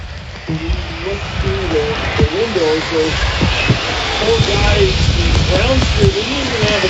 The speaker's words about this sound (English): there's water everywhere in the booth right now, and it is waves of rain outside